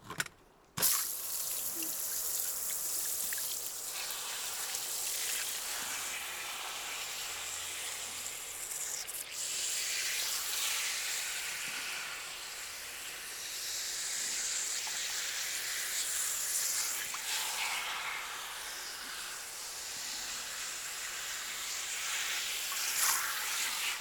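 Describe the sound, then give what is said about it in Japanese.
Water runs continuously to rinse hair during a salon hair wash: a steady hissing stream that swells and eases gently over time, with no talk. “一度お流しいたしますね。”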